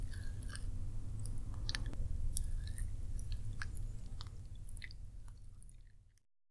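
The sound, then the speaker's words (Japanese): Hands massage ears for ASMR, making soft, continuous rubbing and squishing friction with scattered tiny clicks. It stays quiet and steady throughout, then stops abruptly. “この暖かさを利用して、耳を揉ませていただきます。”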